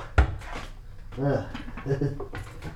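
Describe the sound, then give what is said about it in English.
A cabinet door shuts with a single sharp knock while someone works on a keyboard cable inside the cabinet. A voice talks over the moments after the knock. “there we go. I think it closed.”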